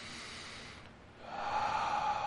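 A slow, deep breath drawn in through the nose during a relaxation exercise, a soft airy rush that dips briefly, then swells and holds steady, faint and alone.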